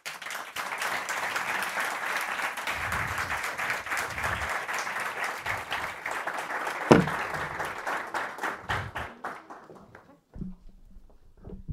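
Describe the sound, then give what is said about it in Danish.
Applause for the director of the Museum of Copenhagen: steady, moderately loud clapping that thins out and dies away after about ten seconds, followed by a voice. “Stort tillykke og give en rigtig stor hånd til Louise Jacobsen, museumschef Københavns Museum.”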